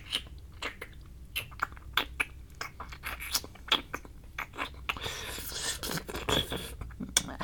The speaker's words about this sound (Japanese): 俺がさ、舐める音してからさ、一気に強くなったね。